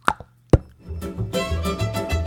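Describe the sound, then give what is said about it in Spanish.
A cork popping out of a wine bottle: a small sharp plop, then a louder, crisper pop, followed by continuing tonal sound. “lo que hace es abrir la botella de vino y con el aguijón pincha el corcho y hace...”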